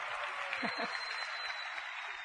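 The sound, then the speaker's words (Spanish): Applause from an audience welcoming a couple at a live event, a soft, even patter of clapping with a brief voice rising over it early on. “Ahí entran los aplausos.”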